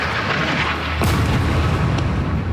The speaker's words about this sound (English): Israeli airstrikes, like this one on a mosque and refugee camp this week, have continued regularly, with Israel